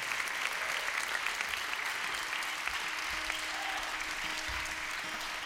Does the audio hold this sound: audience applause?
yes